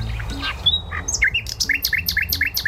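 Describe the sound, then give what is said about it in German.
Nightingale song: varied whistles and short trills, then a steady run of clear, high, repeated chirping notes in a quick, even rhythm. “Das ist eine Nachtigall.”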